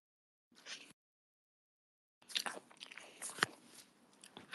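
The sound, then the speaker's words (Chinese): Someone bites into a peach and then chews: one short, soft crunching bite, a pause of silence, then a longer run of moist, squelchy chewing. It is quiet throughout, with no talk. “看我吃桃子”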